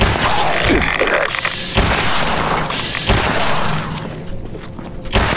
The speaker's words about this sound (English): Let's try this pistol. That works all right.